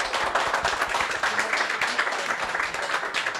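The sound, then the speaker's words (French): Audience applause at a live event: many hands clap in a dense, steady patter that holds at an even level throughout. “Est-ce qu'on peut avoir quelques applaudissements pour Mehdi, s'il vous plaît?”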